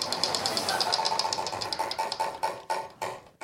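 A game show wheel spins with a rapid run of clicking ticks that gradually slow and spread further apart as it winds down.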